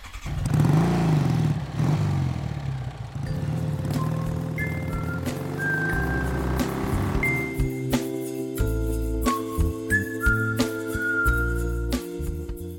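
A motorcycle engine revving in a short burst at the start, its low growl swelling and falling, then giving way to upbeat music with a whistled melody.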